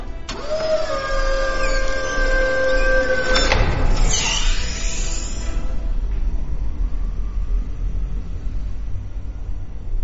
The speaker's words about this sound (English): Quickly, this way. This emergency elevator will take us straight to the hangar bay. Oh, very swish. After you. Get in.